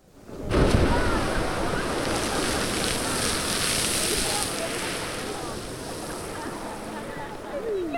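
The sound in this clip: Strokkur geyser in Iceland erupts with a sudden loud rushing roar of water and steam that holds steady for several seconds, buffeted by wind.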